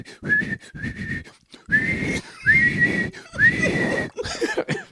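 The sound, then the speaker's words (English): A voice imitates a whistle being blown: about six breathy, shrill bursts, each holding a high piercing tone, with short gaps between them. “And then she swims over to get the whistle and she's all”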